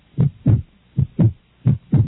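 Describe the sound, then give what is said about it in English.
A frightened heart beats: three steady pairs of low, thudding lub-dub pulses at an even rhythm, loud and alone. “Do you hear that sound? It's the sound of a heartbeat. A frightened, terrified heart.”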